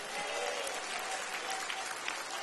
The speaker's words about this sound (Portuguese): venha meu irmão de azul, venha, camisa azul, bate palmas, dá glória a Deus.